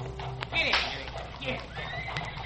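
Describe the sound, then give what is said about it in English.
Horse-drawn wagons and carriages move along an 1870 street: horses neigh shrilly and hooves clip-clop amid a busy clatter, with voices mixed in. “In 1870, there were almost 30,000 workers in wagon and carriage factories. The street sounds then went something like this.”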